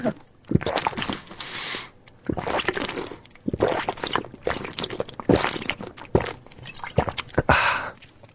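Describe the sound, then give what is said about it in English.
Someone drinks water in a series of irregular gulps and wet, squishy swallowing sounds. The sounds are fairly loud and close, with breaths between them and no clear talking. “I'm going to drink some water. Oh, I'm drinking water.”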